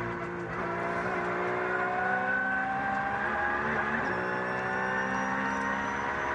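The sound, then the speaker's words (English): Onboard engine sound of a Porsche race car on a circuit with a clear track ahead: a sustained, buzzing high-revving note with strong harmonics and a few brief dips in pitch, heard alone. “We're staying on board with Giorgio Piani in the Black Falcon Porsche, is giving us a little masterclass on how to drive this clear track for him at the moment.”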